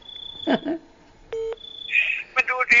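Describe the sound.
Touch-tone keypad dialing on a telephone, a call to the police emergency number 191: one clear, steady electronic tone burst rises out of a stretch where several people are talking and making other noises.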